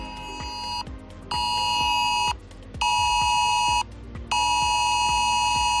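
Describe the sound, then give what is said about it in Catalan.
Civil protection emergency alert tone on mobile phones, sent as a geolocated test warning: four long, loud, piercing electronic tones separated by short gaps, with a rapid low buzzing pulse running underneath throughout. “És la nova senyal d'alerta que ens enviaran quan hagi un avís geolocalitzat, és a dir, els mòbils d'un lloc concret, des de Protecció Civil.”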